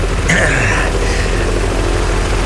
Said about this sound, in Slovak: A už je tu druhý vrtuľník. Tiež ťažká Mi-24.